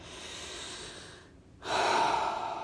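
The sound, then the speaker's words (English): A long, deep breath during a guided relaxation, a soft steady rush of air that pauses briefly and then returns stronger and fuller. “Long, deep breath.”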